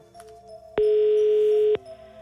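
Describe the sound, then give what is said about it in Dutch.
A single telephone ringback tone sounds while a call is being placed, a steady beep of about one second at one constant pitch over faint music. “We gaan eens even bellen naar... Nou, laten we Dordrecht proberen, maar dat moeten ze wel opnemen.”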